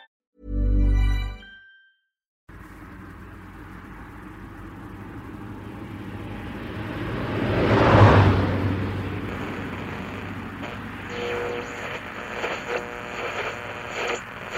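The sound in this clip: A car is being driven, giving a low, steady road and engine rumble that swells briefly midway before settling. A short loud tonal burst and a moment of silence come first.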